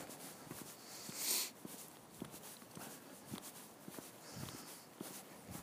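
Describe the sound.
Footsteps on an evening twilight walk: a steady, regular run of soft, fairly faint steps over a low background hiss, continuing throughout.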